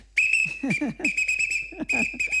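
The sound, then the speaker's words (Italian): Shrill blasts from a traffic officer's whistle as he directs traffic, sounding as a few piercing, high-pitched bursts in quick succession, each held briefly with a warbling edge and short gaps between. “A un certo punto è arrivato un vigile col suo fischietto e ha iniziato a muovere le braccia e a fischiare così, senti,”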